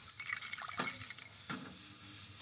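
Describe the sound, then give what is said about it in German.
An ultrasonic bath runs while breaking up orange and dark brown rust particles, giving a steady bright hiss with a few faint clinks and liquid swirls on top. “Jetzt werden wir das Ultraschallbad wieder ausmachen.”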